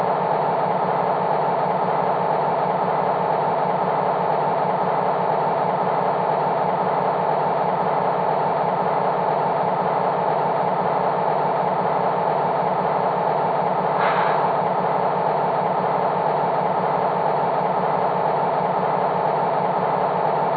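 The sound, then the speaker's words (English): A yard engine idles in a railway yard serving a steel plant, giving a steady, unbroken low diesel rumble that holds at the same level throughout, with no voices. “Yardmaster, is the Irving plant ready for the steel slabs? Engine ET number 2, stab it there. I'm waiting for clearance.”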